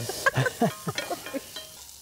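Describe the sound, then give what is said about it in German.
Food is stirred as it fries in a pan for browning, with a steady soft sizzle under a series of irregular scrapes and light clatters that grow fainter toward the end. “Nee, soll ich mal aufhören zu rühren?”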